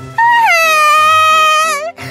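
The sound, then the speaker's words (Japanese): A woman crying loudly in a long, high, wavering wail that holds steady for well over a second, then breaks off with a catch and a short sob. “分かったから、もう泣くな”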